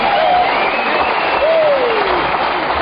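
Audience applause greeting the Denning sisters, a trio of young women singers, at the Grand Ole Opry's 25th anniversary show in 1950, loud and steady clapping with crowd noise and a whistle that slides downward.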